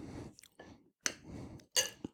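Soft, moist chewing of a lightly aged cheese during a tasting: a few quiet squishy bites and smacks separated by short pauses, with no talk.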